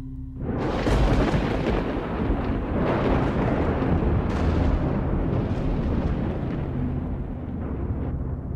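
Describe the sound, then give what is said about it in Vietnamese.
Thunder from the sky rolls through as a loud, continuous deep rumble with a few swelling peaks, sustained without a break for several seconds and no voices. “từ trên tầng không tiếng sấm vang trời.”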